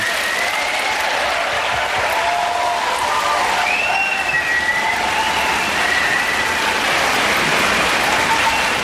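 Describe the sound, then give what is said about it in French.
A crowd gives a standing ovation, with dense, continuous clapping from many hands that stays loud and even for about nine seconds, with no speech over it. “Là, c'est parce que vous voyez peut-être pas, mais il y a une ovation debout”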